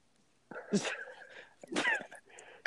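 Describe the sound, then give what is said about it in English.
A person gasps for air in two loud, harsh, breathy bursts separated by a short pause, noisy and rasping, with no words spoken. “Are you gagging? What is that? I'm gasping for air.”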